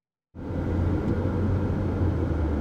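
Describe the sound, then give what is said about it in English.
A car drives along Illinois Route 1 south of Danville on a sunny afternoon, its steady low road rumble with a faint hum starting abruptly and holding evenly throughout, with no talk. “I'm driving along Illinois Route 1 south of Danville.”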